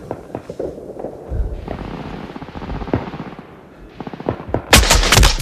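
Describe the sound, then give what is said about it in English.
Machine gun fire from a World War II film battle scene with soldiers: rapid bursts of sharp shots crackle in quick runs, then a much louder, dense barrage erupts near the end. “Bullets rip into Henderson. He falls back, clutching his neck. A soldier reaches an automatic around the doorway.”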